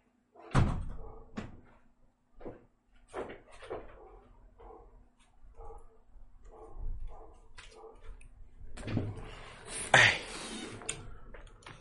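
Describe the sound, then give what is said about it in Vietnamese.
A door being closed at home: a few sharp thumps and knocks, with a louder, rougher burst of rattling noise near the end, and no talking. “Đợi mình chút ra đóng cửa cái”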